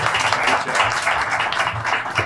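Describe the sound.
Audience applause at a roadhouse-style venue: dense, steady clapping that stays continuous and fairly loud from start to finish.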